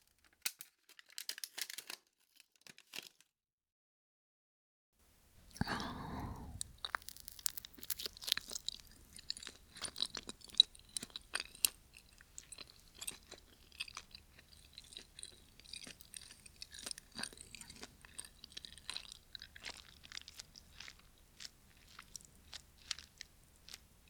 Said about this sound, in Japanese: 次は、みたらし団子。それじゃあ、いただきます。